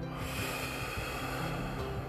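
A deep breath drawn in during a guided breathing exercise, heard as a steady, airy rush of inhaled air lasting about two seconds, with no talking over it.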